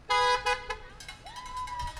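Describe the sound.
Car horns honk over street traffic in San Francisco, a few loud, bright toots at the start followed by a long, steady horn tone, all above a low rumble of passing vehicles.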